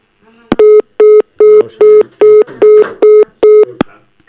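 Telephone line tones as a call rings out and is cut off: eight short, identical steady beeps in an even rhythm, with faint background noise between them.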